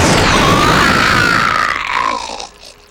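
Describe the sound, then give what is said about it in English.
A Dalek gun blast: a loud, harsh burst of broad noise carrying a warbling electronic tone that slides downward, then dies away over the final second. “You brought along the Dalek gun? I thought it might prove useful.”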